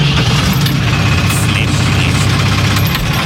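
A farm vehicle carrying a flame weeder drives out to the field, its engine giving a loud, steady, low rumbling drone throughout.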